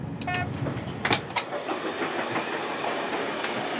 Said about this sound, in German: Die Deutsche Bahn betreibt 53 Waschanlagen für den Regionalverkehr in Deutschland. Eine davon ist am Hauptbahnhof Bremen.